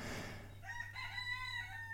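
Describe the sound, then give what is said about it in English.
A rooster crows once from beside a house window, a faint, drawn-out harmonic call rising out of a low steady hum and then trailing off, with no talking. “It's like the rooster's waiting for me. It's like the rooster's waiting for me to record.”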